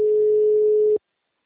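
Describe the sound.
A telephone line tone after a call is hung up: one steady, mid-pitched electronic tone that holds for about a second and then cuts off abruptly into silence.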